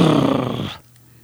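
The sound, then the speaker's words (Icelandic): Lions growl fiercely in a loud, low, rough rumble that holds for under a second, then cuts off abruptly into near silence. “Ljónin horfðu hungruðum augum á Daníel og tennur þeirra voru sterkar og beittar. Þau urruðu grimdarlega.”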